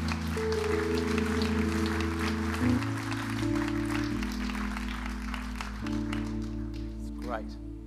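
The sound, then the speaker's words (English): A church audience applauds to welcome guests during a morning service. The clapping is steady and lasts about eight seconds beneath sustained keyboard chords. “Can we please, church, welcome our guests this morning. Give them a great big hand.”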